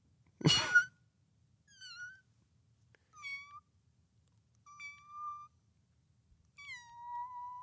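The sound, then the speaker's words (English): A person imitates a cat's meow: after a brief sharp burst come four separate, drawn-out meows, each sliding down in pitch and spaced a second or so apart, fairly quiet against silence. “Give me your best meow.”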